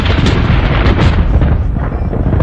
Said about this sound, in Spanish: Cuando de repente el cielo que estaba claro se oscureció y comenzó una gran tormenta.